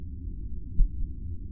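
A low, muffled heartbeat throbs faintly in near silence, with one deeper thump standing out midway through the steady rumble.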